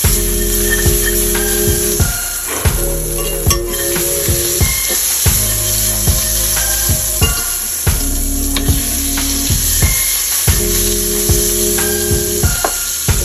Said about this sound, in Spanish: una pizca de aceite de oliva. Vamos a poner media barra de mantequilla a derretir.